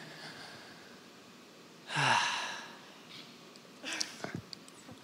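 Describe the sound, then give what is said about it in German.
A deep breath in, one audible inhalation lasting about half a second in an otherwise quiet stretch, followed by a brief, softer breathy sound. “Bleib einfach mal stehen, sei mal ruhig und atme einfach mal ganz tief ein. Ihr dürft das mal zu Hause machen, einfach mal tief einatmen.”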